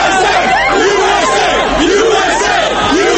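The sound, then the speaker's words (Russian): Crowds cheer in the streets of Washington and New York at news of Osama bin Laden's death: a dense, loud, unbroken roar of many voices shouting and chanting throughout. “В Вашингтоне и Нью-Йорке тысячи людей вышли на улицы, приветствуя сообщение о его уничтожении.”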